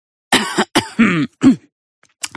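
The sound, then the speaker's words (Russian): A man clears his throat before addressing a gathering of reporters: a few gruff, voiced rasps in quick succession, loud and alone, then a last faint catch after a short pause. “Он откашлялся и произнес:”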